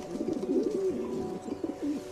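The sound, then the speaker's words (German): Cooing of a city pigeon: a few low, throaty, rolling coos in a steady repeated pattern, fairly soft and heard alone. “Ihren Ruf habt ihr Kinder doch alle schon mal gehört. Genau, dieses Kuruku, Kuruku oder Kurukukuku oder eben hier im Original.”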